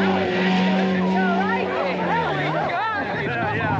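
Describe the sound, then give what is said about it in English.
A snowmobile engine drones steadily as it rides off down a snowy street, a continuous loud motor hum. People talk over it throughout. “Jesse gets off, pushes the snowmobile, and falls face down in the street. Snow spews in his face as Johnny rides off.”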